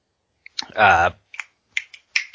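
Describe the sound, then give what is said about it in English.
Several sharp finger snaps, crisp and irregularly spaced, follow a short vocal sound. “snap my fingers.”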